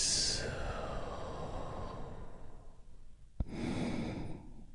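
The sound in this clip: Deep, slow breathing: a long, airy exhale rushes out, then a fuller inhale follows after a brief pause, both soft and breathy with no voice over them.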